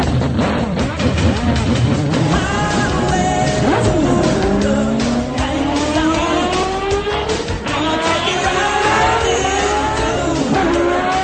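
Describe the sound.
Racing car engine revving at a historic racing Walter Mitty Challenge event, a loud, sustained snarl whose pitch climbs repeatedly through rising sweeps.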